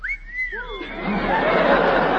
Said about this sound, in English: are you joining these soldiers with our whistling business?